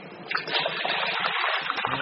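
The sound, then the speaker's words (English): Water sloshes and pours as boiling water is scooped from a large stovetop pot with a smaller pot and emptied into a bowl of cold water, a continuous splashing trickle lasting about two seconds. “She uses a smaller pot to scoop the boiling water into a large bowl of cold water.”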